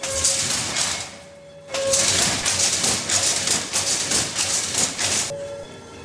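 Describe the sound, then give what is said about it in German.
A weaving loom clatters as its shafts rise and fall and the batten drives the weft thread against the finished cloth. Loud, rapid, repetitive mechanical clacking runs almost throughout, with a brief softer lull early on. “Schäfte oben, Schäfte unten, Lade nach hinten. Jetzt wird die Lade vorkommen und drückt den Schussfaden hier an das fertige”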